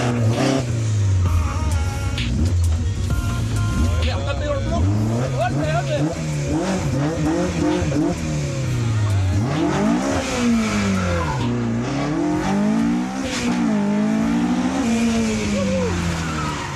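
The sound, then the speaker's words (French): A McLaren sports car revs hard through a timed cone slalom. The engine pitch repeatedly climbs and drops as it accelerates and lifts between turns, with tire squeal at times. “l'idée c'est de slalomer entre les cônes et de revenir. Ouais, easy quoi. Voilà, bah, je t'ai laissé un peu de place hein, parce que la McLaren pour braquer.”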